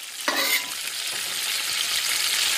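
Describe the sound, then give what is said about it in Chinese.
Dried chilies stir-fried in hot oil, a continuous crackling sizzle with a sharp scraping stir near the start, moderately loud and steady with no voices. “先在热油锅中将燕来逊爆香，放入干辣椒后不停翻炒，”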